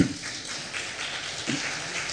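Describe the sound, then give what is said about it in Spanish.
A church audience applauds during a Spanish-language sermon, a soft, even patter of many hands that holds at a moderate level for about two seconds. “¿Cuántos dicen gloria a Dios? Un aplauso, por favor, a nuestro Señor.”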